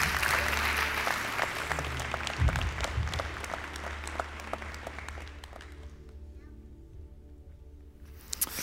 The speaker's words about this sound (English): Would you put your hands together and welcome Pastor Curtis Andrusco.